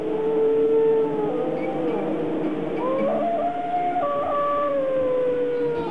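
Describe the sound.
A wild dog howls in long, wavering tones that slide up and down in pitch, several drawn-out cries overlapping against a steady background hiss.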